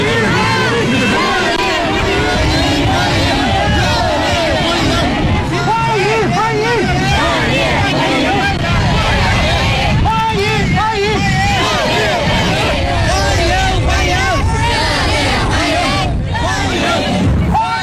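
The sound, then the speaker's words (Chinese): A crowd of overseas Chinese and students lining the road to welcome Xi Jinping, a loud, continuous mass of voices shouting and calling out together. “习近平乘车从机场赴下榻饭店途中，华侨华人和留学生代表聚集在道路两旁，挥舞中美两国国旗，热烈欢迎习近平主席到访。”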